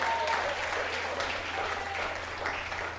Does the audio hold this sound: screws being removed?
no